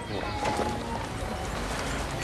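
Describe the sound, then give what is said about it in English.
A horse and carriage pull up on a street, the hooves clip-clopping faintly and steadily under a broad background hiss. “A horse and carriage pull up on the street”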